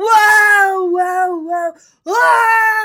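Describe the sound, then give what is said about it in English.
A person's voice imitates loud, bitter wailing of grief, mimicking a mourner in torn clothes, sackcloth and ashes. Two long, sustained, strained cries break off briefly between them, both loud and tonal. “That's a good reenactment, yeah. Right? That's wailing bitterly and loudly, right?”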